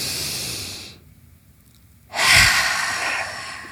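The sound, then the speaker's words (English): Deep breathing during a coaching session: airy, hissing breath noise that fades into a short near-silent pause, then a louder, longer breath. “let's breathe in 3, 2, 1.”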